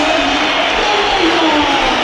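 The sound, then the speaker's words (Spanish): A football stadium crowd whistles and jeers at a player entering the pitch in a triple substitution, a loud, dense, unbroken wash of shrill whistles and crowd noise. “A ver, entra Jacobo al campo. Pues pitada. Pues pito para Jacobo”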